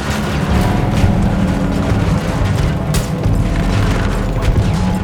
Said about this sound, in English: Just threw a grenade on him. Did any real damage?